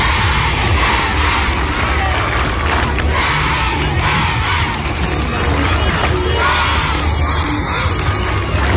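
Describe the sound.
Schoolchildren at Leskovac primary school cheering and shouting: a loud, continuous crowd of young voices whooping and yelling without pause for around nine seconds.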